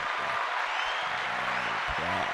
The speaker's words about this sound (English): let me give you a round of applause